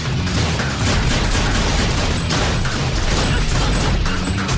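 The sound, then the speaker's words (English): A loud, continuous barrage of gunfire and crashing impacts from an action film shootout, with dense rapid shots merging into a sustained roar rather than standing apart as single shots. “He shoots an encroaching thug in the leg.”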